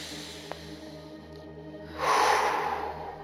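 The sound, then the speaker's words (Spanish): A deep, loud breath during a guided breathing exercise, a broad rushing whoosh of air that swells suddenly after a quiet stretch and then slowly eases off. “Empezamos a respirar honda y sonoramente.”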